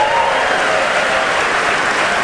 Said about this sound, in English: for every person applauding, the Public Radio Fairy awards us $10